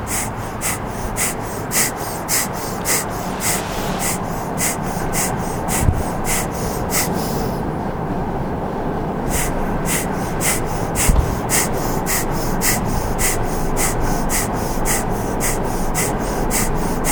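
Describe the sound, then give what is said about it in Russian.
Rapid, forceful breathing through the nose during a kriya yoga warm-up exercise, many sharp rhythmic exhalations at about two per second, broken by one short pause midway, over a constant noisy background. “Еще 3 минуты дышим.”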